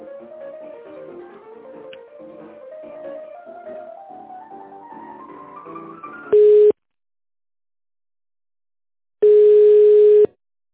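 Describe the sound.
Telephone line tones sound while a call is being connected: a warbling series of electronic notes climbs steadily in pitch, then two steady beeps follow, separated by silence, the second one longer.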